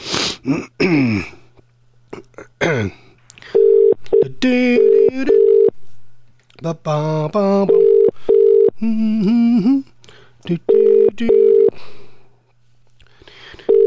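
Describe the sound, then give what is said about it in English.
A phone call rings out on the EE network. Steady low ringback tones repeat in pairs over several cycles, with voices talking between and over them. “Let's go try and ring him up.”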